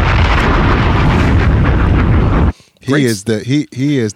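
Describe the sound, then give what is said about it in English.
A bomb explosion sound effect: a loud, dense roar of rumbling noise for about two and a half seconds that cuts off abruptly, followed by someone talking. “Bombs!”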